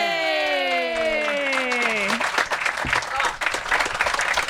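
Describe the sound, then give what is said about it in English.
Audience applause with some cheering breaks out after a sustained, drawn-out tone glides downward, then continues as lively, uneven clapping to the end. “ladies and gentlemen, let's give it up to your friend and mine, Elmer McCurdy.”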